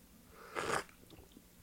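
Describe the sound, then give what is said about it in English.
Someone takes one brief slurping sip of a drink, a quiet burst that is followed by faint, small mouth sounds. “All right, here we go. Here we go. Sips.”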